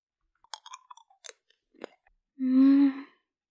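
Chewing and crunching on a sweet candy that is rolled on the tongue and slowly melts: a few faint, scattered crisp clicks and crunches, then a short, louder low humming tone.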